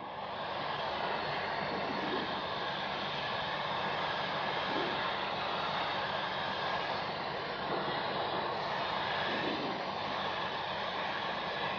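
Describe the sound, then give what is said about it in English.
A small airplane's engine drones as it turns to line up for the runway, a steady, fairly quiet hum with a hissing wash that barely changes over the whole stretch. “We're just making some turns here to get lined up for the runway.”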